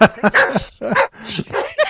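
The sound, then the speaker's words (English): A dog whimpers and yips in several short, high, whiny bursts with brief gaps between them, fairly loud and close to the microphone. “I better be quick because my dog's giving me that.”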